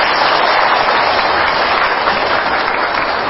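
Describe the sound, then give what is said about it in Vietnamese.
An audience at a Buddhist teaching gathering in Germany applauds, a dense, steady wash of many hands clapping at an even, fairly loud level throughout. “xin cho đạo tràng Pháp Duyên Xu Gạch tràng pháo tay đi”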